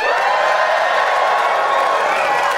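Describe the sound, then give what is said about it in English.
Live audience cheering and applauding at a comedy show recorded at the Bumbershoot Arts and Music Festival in Seattle. A dense, steady wash of clapping and crowd noise holds for the whole stretch. “This is Doug Loves Movies, coming to you in front of a live audience.”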